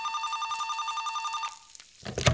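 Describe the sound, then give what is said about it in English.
A telephone rings with a fast, steady electronic trill that lasts about a second and a half, then cuts off, followed by a few faint knocks and rustles. “the phone is about to ring. It's Grandma.”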